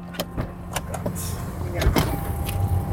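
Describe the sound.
Car interior noise as a car drives through the centre of Hønefoss, Norway: a steady low rumble throughout, with several sharp clicks and knocks.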